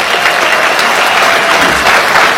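An audience applauds after a call to honour a large funding partnership for a medicine rollout. The clapping is dense and steady and stays loud throughout.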